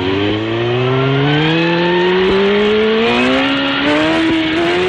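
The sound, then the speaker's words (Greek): A car accelerates hard while driving fast at around 100 km/h. Its engine drones loudly and steadily, and the pitch climbs smoothly over the whole stretch with no break. “Κόψε ταχύτητα. Θα μας γράψουν. Έλα ρε, με 100 πάμε.”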